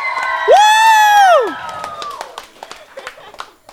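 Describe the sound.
A studio audience on a talk show cheers as a guest arrives: one loud whooping cheer rises and falls for about a second, followed by scattered claps and fainter voices.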